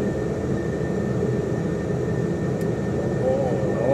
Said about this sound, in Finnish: voit pysäyttää siihen ja kone nousee ilmaan.